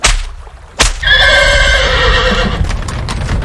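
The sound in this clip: A horse pulling a royal carriage gives a loud, long whinny after a couple of sharp knocks, with hooves clip-clopping underneath as the neigh trails off.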